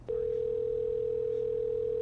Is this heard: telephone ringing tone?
yes

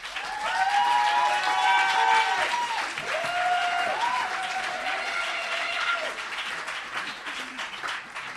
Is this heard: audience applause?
yes

